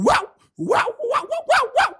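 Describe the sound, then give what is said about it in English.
A voice imitates a dog barking, acting out a rabies victim: five loud, sharp, throaty barks in quick succession, the first set apart by a short pause. “within days, you start barking like a dog”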